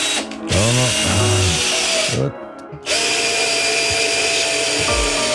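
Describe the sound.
A power drill drives screws during a piano repair. Two sustained bursts of loud motor whirring are split by a brief lull near the middle, and the motor's whine dips and climbs in pitch early on as the trigger is worked.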